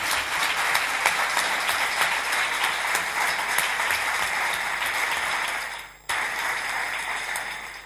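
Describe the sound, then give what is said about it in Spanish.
Sustained audience applause at a 40th-anniversary tribute event, a dense, even roar of clapping that dips briefly near the end, then resumes at full strength. “un fuerte aplauso en agradecimiento”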